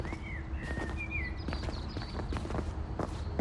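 Footsteps of people walking on a mountain path, a run of irregular steps and scuffs, with high whistling bird calls above them.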